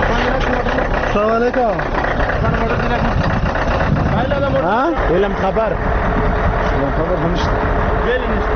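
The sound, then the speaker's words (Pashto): Heavy cargo trucks with a continuous low engine rumble, swelling a couple of times as the engines rev, while people talk over the noise. “راپور د باروړونکو موټرو په شخ پیلېږي.”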